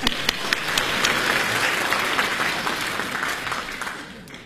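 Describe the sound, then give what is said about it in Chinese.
Audience applause at a live comedy stage show: dense, loud, continuous clapping that fills the whole stretch and holds at an even level. “大西厢 啊，来啊，再来点掌声。”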